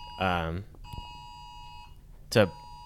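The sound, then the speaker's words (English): Amber Alert emergency alert tone on a phone: a steady, high electronic tone held for about two seconds, with a voice speaking briefly before it and again as it ends. “Should I just keep checking? Is it an Amber Alert? It's an Amber Alert, yeah. I just maybe hit my phone too.”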